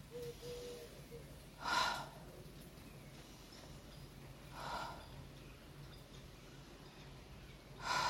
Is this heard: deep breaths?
yes